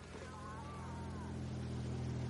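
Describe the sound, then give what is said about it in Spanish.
Steady engine drone of a motorcycle pulling up beside a parked car outside a house, a continuous low humming rumble with a broad hiss that gradually swells slightly louder. “Duke se acerca en moto junto a un coche, en cuyo interior está Cruz.”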